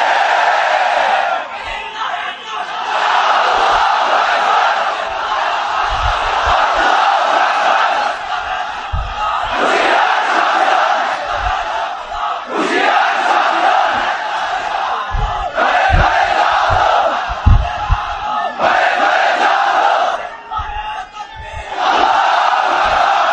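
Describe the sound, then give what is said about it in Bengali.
A large crowd roars back at a preacher's call to shout their agreement, producing sustained loud collective yelling with brief dips and renewed surges of voices. “চিল্লায় বলো ঠিক কিনা?”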